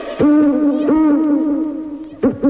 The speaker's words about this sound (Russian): Тут филин заухал.